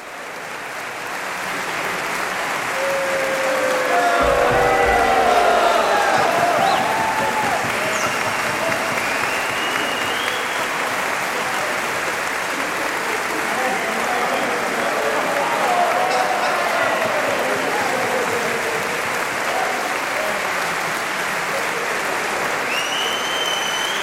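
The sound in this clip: Loud, sustained applause and cheering from a live concert audience at a Tenerife festival in 2008, calling for the band to keep playing, steady for the whole stretch with scattered whistles and shouts through it.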